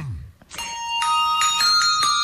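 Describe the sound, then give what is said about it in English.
Bright ringing bell tones from the 1989 Hershey's Kisses holiday commercial, where red and green chocolate kisses act as bells, sounding a few clear sustained chimes in a gentle melodic sequence. “The little red and green kisses doing the bells.”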